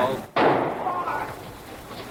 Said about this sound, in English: He's been shot. He's been shot.